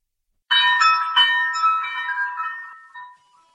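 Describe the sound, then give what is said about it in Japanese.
A cowbell hanging on a door clangs as someone enters. A bright metallic jangle sounds with two or three quick strikes, then rings on and fades out over about three seconds. “カウベル。若い男が二人入ってきた。”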